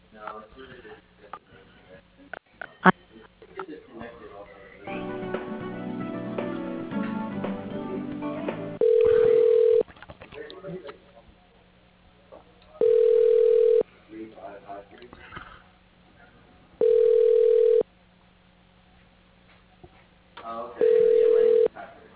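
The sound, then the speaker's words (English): Four steady electronic beeps, each about a second long and evenly spaced, as a caller spells a name on a telephone keypad into an automated directory; they follow a stretch of other sounds. “Use the telephone keypad to spell the name. Press pound when finished entering name.”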